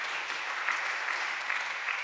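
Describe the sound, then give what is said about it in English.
Congregation clapping hands during a church service, a dense and steady wash of many hands applauding together without pause and without talk. “Clap your hands this morning if you think that's beautiful. Clap your hands this morning.”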